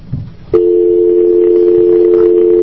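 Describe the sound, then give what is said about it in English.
Telephone dial tone on a line opened for a conference call. A short click of the pushed button comes first, then a loud, steady, unbroken tone lasts to the end. “We have a conference call with a Miss Sally Sacker from the Washington Scholarship Fund in Washington, D.C. And hopefully when I push the button, she will be there.”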